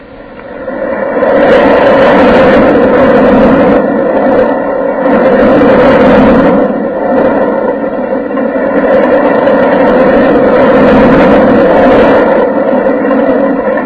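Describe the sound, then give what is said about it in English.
Rumbling roller coaster ride sound effect for the Whirlwind: a loud, continuous mechanical roar that swells and eases in several waves, with no voices. “And the next thing I want to know is how to take a ride on the roller coaster. Denny and I are going for a trip on the Whirlwind.”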